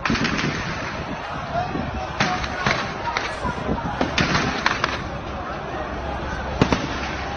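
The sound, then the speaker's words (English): Gunfire from armed forces opening fire on protesters in Lagos, Nigeria: many sharp, scattered cracks and bursts at irregular intervals over a constant rough background, with voices mixed in. “that's not a great sound of bullets being fired. And this is allegedly Nigerian forces opening fire on protests in Lagos after many days of demonstrations against police brutality.”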